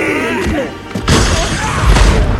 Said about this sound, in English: Bowser flicks Mario with his tail, smashing him through the window of the diner.